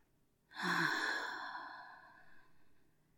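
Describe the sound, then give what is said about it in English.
A single long, audible breath during a breathing exercise, starting abruptly and slowly fading over about two and a half seconds, with a soft voiced, sigh-like tone and no other sounds. “try to join me in this breathing exercise and just focus on me. As we breathe in and out.”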